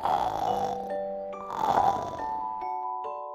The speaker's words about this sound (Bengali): ব্যাং খুব ক্লান্ত হয়ে ঘুমিয়ে পড়ল। ঘুমিয়ে পড়ে নাক ডাকতে লাগলো।